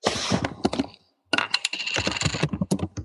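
Rapid typing on a computer keyboard, a loud, dense clatter of keystrokes that stops briefly and then resumes at the same busy pace.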